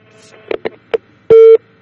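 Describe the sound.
Telephone tones signal the next caller joining a radio phone-in. A few short, loud beeps are followed by one longer, steady tone.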